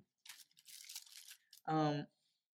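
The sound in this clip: Pages of a Bible are flipped quickly, making faint, papery rustles and crinkles for over a second, followed by a short voiced sound.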